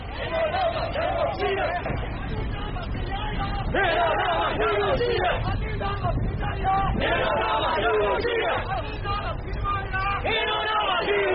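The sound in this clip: Young protesters in Yangon chant slogans in support of Mandalay: a loud, dense crowd of voices shouting in unison in repeated rhythmic phrases without a break.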